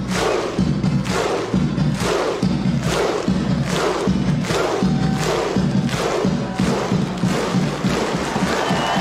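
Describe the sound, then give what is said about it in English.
Deep Viking war horn (Gjallarhorn) blasts alternate with heavy rhythmic thuds and shouts from a huge Icelandic football crowd welcoming their team home, a slow, even beat repeated many times. “Now what is that sound effect? That's the Galahorn. Oh, that's right. That's the war horn the traditional war horn for the Vikings.”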